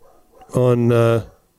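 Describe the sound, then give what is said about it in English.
A dog gives a single drawn-out, tonal bark that stretches into a whine, loud and lasting under a second, heard alone. “I hate my dogs. I just hate them. I don't know if you can hear them or not, but I certainly can.”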